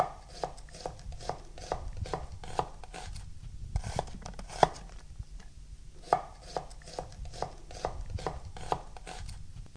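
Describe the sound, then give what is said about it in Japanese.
A knife slices half an onion very thinly, cut side down, making many quick, even taps on a cutting board in a steady rhythm, fairly faint and without voices. “玉ねぎです。1/2 個断面を下にしていただいて、端からごく薄切りにしていきます。”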